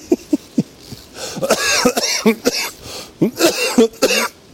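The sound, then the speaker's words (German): A person coughs while cycling: three short, sharp coughs come first, then a longer run of harsh, voiced coughing and throat clearing in uneven bursts. “Oh, Entschuldigung. Geht nicht. Jetzt hatte ich gerade was im Hals.”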